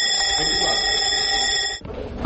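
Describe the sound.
An electric school bell rings at a school in central Baku, a loud, steady, continuous metallic ring that holds for nearly two seconds and then cuts off abruptly, leaving low background noise.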